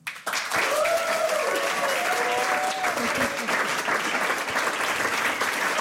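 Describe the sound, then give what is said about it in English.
Audience applause welcoming musicians at a concert event: a sudden swell of clapping that stays full and even for several seconds, with a brief voice rising over it early on. “Einen großen Applaus, a warm welcome für Mocky hier gemeinsam mit Charlotte Kalas und Dee”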